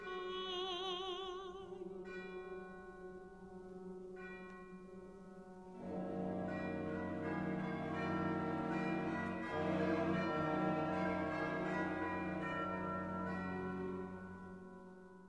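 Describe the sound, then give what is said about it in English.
Bells ring out at the close of an opera scene, their tones layered with orchestral music. The sound builds from lighter, separated tones into a fuller, louder and sustained texture that runs to the end. “lovely those bells at the end”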